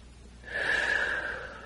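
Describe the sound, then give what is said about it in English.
A single deep breath drawn slowly during a guided relaxation, a soft, airy rush of air that swells and fades over about a second, heard alone without talk. “Let's take a deep breath and go deeper.”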